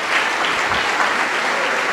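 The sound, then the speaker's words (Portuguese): Dense applause from a church audience during an altar call, a steady, even wash of many hands clapping at once. It holds at a constant loud level for the whole stretch without pauses. “Vamos aplaudir ao Senhor Jesus por cada vida que chegar.”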